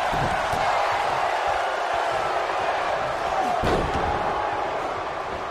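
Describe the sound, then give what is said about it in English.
A huge wrestling punch to the ribcage in a Kevin Nash tag match lands as a single sharp impact over a constant roar of the crowd. “Paul now tags in Kevin Nash once again. And a huge punch to the ribcage.”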